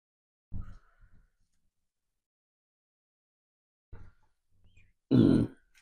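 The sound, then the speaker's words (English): A burp: a few soft, throaty grunting sounds with silent gaps between them, then one loud, low, rasping belch near the end. “Leave my burps in. I love burping. I said leave my burps in. I love burping.”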